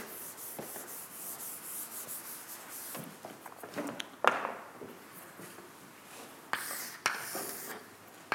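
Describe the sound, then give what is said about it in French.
Drawing on a board during a maths lecture: faint, scratchy rubbing strokes in an irregular rhythm, with a few sharper taps and scrapes between them and no talk. “je vais dessiner quelque chose avant de vous donner la preuve”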